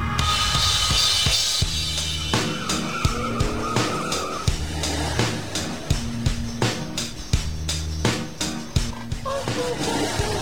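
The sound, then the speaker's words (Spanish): Car driving at night with tires squealing and skidding: a loud, steady engine drone runs throughout, broken by many sharp bursts of screeching and scraping. “Qué linda noche para andar así en el auto.”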